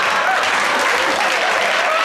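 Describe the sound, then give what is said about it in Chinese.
Dense hand clapping from many people, loud and steady, a continuous wash of claps running the full two seconds with no break. “如果感到快乐我们就一起来，如果感到快乐一起拍拍手，啪啪啪”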